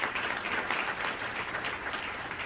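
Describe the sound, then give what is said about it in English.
Crowd applause honoring thirty years of work on end-of-life issues: dense, steady clapping that holds at an even level throughout, with no voices on top. “Give yourselves a round of applause.”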